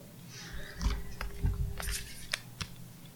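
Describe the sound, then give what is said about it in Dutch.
A deck of cards is shuffled by hand, giving a series of crisp, papery riffles and taps at irregular intervals. The sounds are fairly faint, over a low background hum. “mag jij zeggen wanneer ik moet stoppen met schudden? Oh, en soms springt er alleen uit, want hij wil gezien worden.”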